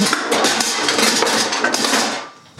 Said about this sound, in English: watch which one I'm going to use. I'm going to use a little pan here.